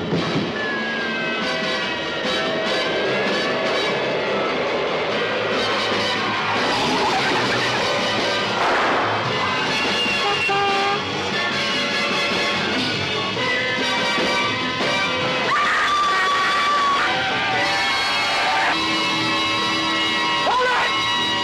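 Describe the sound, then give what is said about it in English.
Trailer audio for the 1971 film The French Connection: a dense, loud, continuous mix of music and sound effects that runs without a break through the whole clip. “French Connection. Okay, so the trailer played, and now we're going to talk about the French Connection.”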